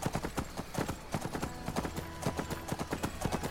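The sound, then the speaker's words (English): Galloping horse hoofbeats from a video game as the horse runs up a road: a fast, rhythmic clip-clop of many hard hoof strikes, steady and fairly loud throughout. “I'm just going to gallop up the road a bit.”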